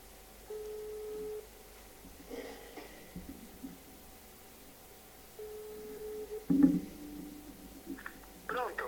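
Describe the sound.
Ringback tone of a phone call placed live from a radio studio: two faint, steady, mid-pitched rings separated by a long pause, over low background hum and soft studio noise.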